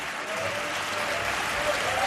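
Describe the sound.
A long ovation from an audience at the season presentation of a zarzuela theatre: dense, even applause holds at a steady level for the whole stretch, with no break or fade.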